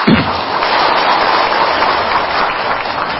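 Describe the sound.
Audience applause at a Buddhist dharma talk: dense, steady clapping that holds at an even loudness from start to finish, with no voices standing out.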